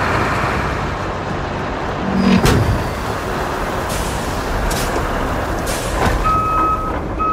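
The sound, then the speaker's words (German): A loading crane in a video game lifts a heavy concrete slab onto a trailer: a steady engine rumble with a few brief clanks, and a high electronic warning tone near the end. “So klingt es, wenn mein Ladekran eine tonnenschwere Betonplatte auf einen Anhänger wuchtet.”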